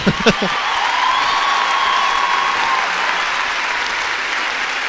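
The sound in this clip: Audience applause fills the hall at an Italian tribute event, a steady, dense wash of clapping that holds for the whole stretch, with a couple of brief vocal bursts at the very start.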